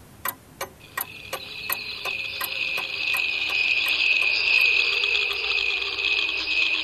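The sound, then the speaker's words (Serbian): A cricket chirps in a continuous, shrill, high-pitched trill that holds steady and grows slightly fuller, accompanied throughout by evenly spaced sharp clicks that begin just before it. “Kad padne noć, pojavi se Pinokijev najbolji prijatelj Cvrčak i počne da svira na svojoj čarobnoj violini.”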